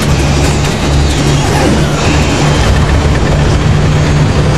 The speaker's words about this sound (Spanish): El piloto activa un botón. La aeronave eleva radicalmente su velocidad.